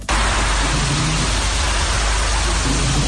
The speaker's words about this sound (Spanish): Es el agua al discurrir en tromba por las calles de la ciudad autónoma.